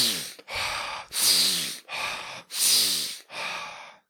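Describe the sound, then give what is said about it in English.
Six deep breaths are drawn and released through the nose in a slow, even rhythm. Each is a soft, airy rush separated by short pauses. “So is the first thing we want to start doing is taking deep breaths. Even better, even through the nose is actually better.”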